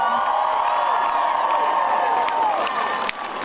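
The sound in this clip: A crowd cheers and whoops at a high school event, a dense, sustained mass of shouting voices that stays loud and then dips slightly near the end.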